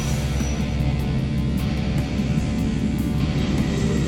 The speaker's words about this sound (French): Un petit vol, ça vous dit ? Ouais, et aussi vite que possible. Allez, on décolle. Décollage en cours. Décollage.